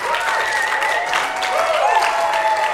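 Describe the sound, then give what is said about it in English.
An audience applauds as a guest, a board director, walks on stage: continuous, fairly loud clapping with a held musical tone running through it. “Give him a hand as he comes.”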